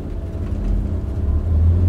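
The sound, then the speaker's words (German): Engines rumble low as the Americans' vehicles pull away around a watchtower by a wall at a checkpoint, a steady deep drone that swells slightly toward the end. “Die Amerikaner fahren wieder an, nach links um den Wachturm herum.”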